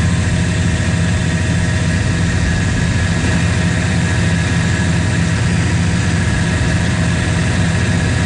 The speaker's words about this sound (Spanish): Escuchemos el audio ambiente de las turbinas de este avión.